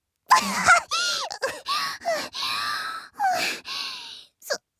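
A frightened person gasps in repeated sharp inhalations without exhaling while attempting deep breathing, a run of many short, voiced, breathy intakes separated by brief pauses, with no talking.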